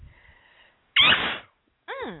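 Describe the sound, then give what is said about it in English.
A single loud, explosive sneeze, a sharp breathy burst lasting about half a second, preceded by faint murmuring and followed by a voice speaking. “I got a sneeze coming.”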